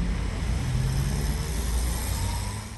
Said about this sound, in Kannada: ಓ bus ಬಂತು ನೋಡು, ಹತ್ತು ಹತ್ತು ಬೇಗ ಹತ್ತು.